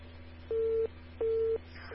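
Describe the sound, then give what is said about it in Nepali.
Telephone line disconnect tones after a caller's line drops during a phone-in: two identical steady mid-pitched beeps, each about a third of a second with a short gap between, over a low constant hum and hiss. “हाम्रो telephone सम्पर्कमा कोही हुनुहुन्थ्यो, उहाँसँगको सम्पर्क भनाइ टुटेको छ।”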